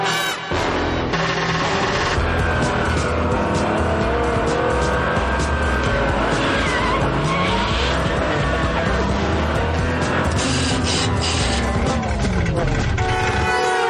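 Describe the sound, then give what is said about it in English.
A Ferrari sports car with a sticky clutch being driven, its engine roaring loudly and continuously as the revs rise and fall throughout, within a dense layer of other sound. “Chuck is driving in a cool Ferrari. Well, he's trying to drive it.”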